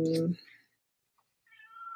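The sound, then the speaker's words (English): A house cat meows: a short tonal cry at the start, then near silence, then a higher, drawn-out cry near the end. “I'm sorry, that's my cat editing.”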